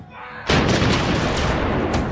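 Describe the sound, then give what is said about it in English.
Cannon fire in a battle erupts as a sudden loud blast after a quieter opening, then spreads into a dense, sustained roaring rumble to the end. “Along Fortius Secundus, a cannonade split the night.”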